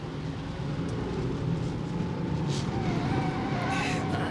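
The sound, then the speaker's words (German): Steady low rumble of a car driving at night on a bumpy road, a continuous engine and road drone with no breaks throughout. “Fahr langsamer, Peter. Runter vom Gas, Peter.”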